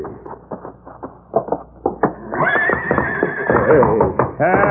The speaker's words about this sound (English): Look at him kick at that stall. Yeah, he's going to be a handful, all right.